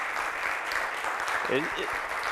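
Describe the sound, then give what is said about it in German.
Audience applause at the close of a conference talk, a dense, steady wash of clapping that runs the whole stretch, with a brief voice speaking over it partway through. “Einen Runde Applaus.”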